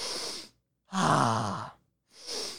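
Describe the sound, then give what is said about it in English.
A voice demonstrates deep breathing as a calming technique. A breathy inhale leads into a long, voiced exhale like a loud sigh, then another breath begins. The breaths are clear and loud, with no talk over them. “Another solution you can do is deep breaths. Just go,”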